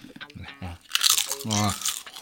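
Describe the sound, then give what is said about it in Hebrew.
Crunchy potato chips are bitten, giving a few crisp, brief crunches mixed in with a talking voice. “עוד פעם תפוצ'יפ? עדיף ביסלי גריל!”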